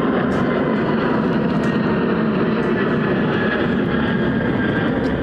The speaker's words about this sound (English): What we're going to do is wait for a plane.